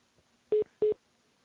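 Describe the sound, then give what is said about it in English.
Two short, steady electronic beeps sound on a telephone call line, evenly spaced and mid-pitched, with near silence before and after. “I don't know where the beep is coming from.”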